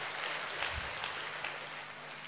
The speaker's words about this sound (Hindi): हम सभी इंदौर निवासी आपका जोरदार करतर ध्वनि से स्वागत करते हैं।